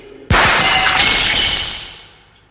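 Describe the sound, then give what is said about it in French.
Mirror glass shatters from a gunshot in a sudden, loud crash, followed by a long spray of bright tinkling fragments. The fragments fade steadily over about two seconds. “Vous n'avez réussi qu'à casser la glace.”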